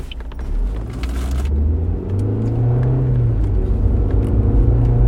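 Car engine rumbling steadily while driving through town, a continuous low drone that holds throughout with a slight upward shift in pitch partway through.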